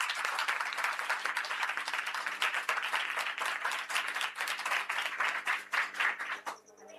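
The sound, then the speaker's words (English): Students in a school classroom quiz clap, giving a round of applause: a dense, fast patter of many hands at a steady, fairly strong level that thins out and fades near the end. “A round of applause.”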